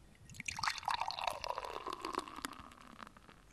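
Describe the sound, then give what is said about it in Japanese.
Stout beer pours into a beer glass with a faint, steady gurgling trickle and splashing drips that run for about three seconds before tapering off, with no voices. “じゃあ、ビアクズグラスに注いでいきます。”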